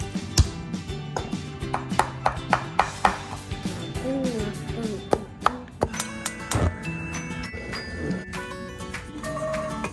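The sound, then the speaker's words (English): Knife chopping garlic: many crisp, irregular taps and clicks, with quick bursts early on and more scattered cuts later, with a faint clink now and then. “Cut as close to the edge as you can. All right, now let's do the garlic.”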